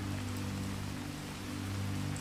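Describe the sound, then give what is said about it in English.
Steady rain falls outside the stone walls of a manor on a stormy night. It makes an even, unbroken hiss with a low, constant rumble beneath it and no distinct gusts. “The rain outside continues its steady cadence and the winds howl around the stone walls.”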